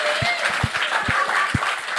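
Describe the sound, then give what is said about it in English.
An audience applauds a guest at a live show. Brisk, steady clapping lasts about two seconds, marked by a few heavier low thumps. “Everyone, huge round of applause, please, for Matt.”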